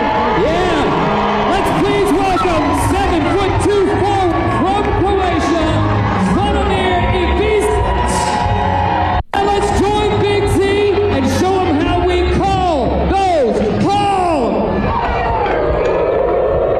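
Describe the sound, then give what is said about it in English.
An Arkansas hog call is chanted by a crowd of nearly 4,000 basketball fans in Fayetteville. Loud massed voices whoop in repeated rising and falling arcs, with a brief dropout midway. “I thought it was a solid first-time hog call”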